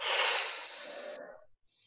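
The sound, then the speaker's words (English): A deep breath released after a held breath in a tension-release exercise: one long, breathy exhale, loud at first and tapering off over about one and a half seconds, then a brief faint breath after a short gap. “Now as we release, we're going to release all the tension. Release a breath. Go.”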